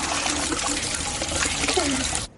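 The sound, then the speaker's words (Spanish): A shower runs at home, a loud, steady hiss and splash of falling water that continues without pause and then cuts off abruptly at the end. “En casa, Mark se ducha.”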